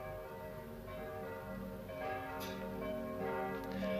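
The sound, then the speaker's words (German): Faint church bells ring in a 1961 stage production. Sustained, overlapping bell tones hum quietly under a low background, with no speech. “Mit dem Glockengebammel sollten Sie endlich aufhören.”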